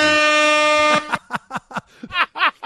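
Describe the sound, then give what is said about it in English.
An air horn sound effect blares as one sustained, loud, buzzy blast lasting about a second, then cuts off abruptly as a voice begins talking. “We just have an air horn.”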